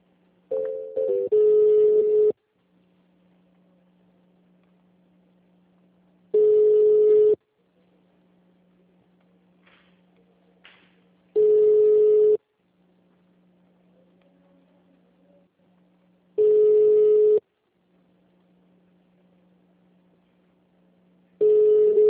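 Telephone ringback tones sound while a call is transferred to HR: five loud, steady electronic tone bursts, each about a second long, repeat roughly every five seconds over a faint low hum.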